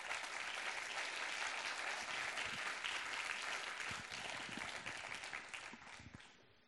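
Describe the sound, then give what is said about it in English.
An audience applauds as a pastor is welcomed at a church gathering, a dense steady clapping that holds level and then thins and fades toward the end. “may I invite you to put your hands together and please welcome Pastor Dexter.”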